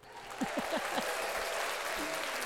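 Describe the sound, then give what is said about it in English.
Many hands clapping in a steady burst of crowd-like applause that carries on through the whole stretch. “Also, if you're happy and you know it, clap your hands.”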